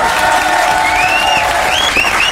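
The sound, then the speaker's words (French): Audience applause: a dense, steady patter of many hands that holds at an even, fairly loud level from start to finish. “Ouais, n'applaudissez pas trop car c'est pas toujours le top d'habiter à Val-de-Rue.”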